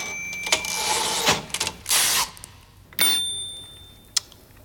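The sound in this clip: Typewriters from a personal collection clack in irregular loud bursts, with bright bell-like rings and a sharp click near the end. Quieter gaps separate the bursts, and no one speaks.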